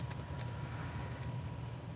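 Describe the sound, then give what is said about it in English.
Faint keyboard typing as a word is entered into a search box, a few soft, scattered key clicks over a low steady hum. “So here I'll type in Microsoft.”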